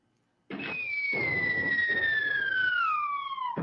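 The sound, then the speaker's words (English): A falling-bomb whistle effect begins abruptly. Its high tone slides steadily downward for about three seconds over a rough, noisy rumble. “Oh, yes. That was a wonderful bomb dropping moment.”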